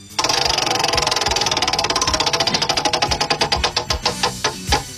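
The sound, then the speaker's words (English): A prize wheel spins with rapid, loud ticking clicks that gradually slow and spread apart as it winds down near the end. “I'm going to spin this wheel”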